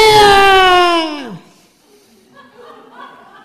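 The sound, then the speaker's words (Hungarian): A person imitates a jackal crying with one loud, sustained wailing howl whose pitch drops sharply at the end, followed by quiet, indistinct sounds. “And the jackal was crying.”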